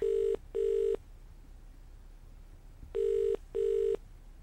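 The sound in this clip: A telephone rings in two double rings, each a pair of short, steady, bright tones. A long gap separates the pairs, and nothing else is heard beneath them.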